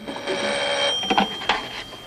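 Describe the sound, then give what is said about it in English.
A telephone rings as someone comes out of a bathroom to answer it: a steady, high electronic ring that sounds throughout, with a few brief louder bursts in the second half. “comes out of the bathroom to answer the phone”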